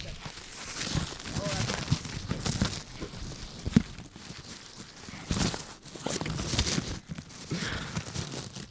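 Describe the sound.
Gift wrapping paper held with tape is ripped and crumpled open in rough, noisy bursts that come and go, with people talking over much of it.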